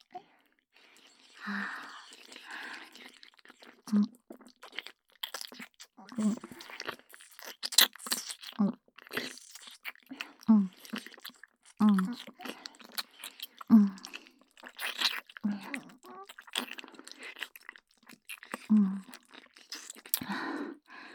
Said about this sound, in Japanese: コリコリなめなめしておいしい。